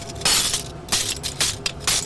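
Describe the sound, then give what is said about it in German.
A window pane smashed into small and larger pieces with a hammer: a few loud, bright crashes of shattering glass, each followed by tinkling shards, in an irregular rhythm with no talk. “Mit einem Hammer zertrümmert sie eine Fensterscheibe zu kleinen und größeren Stücken.”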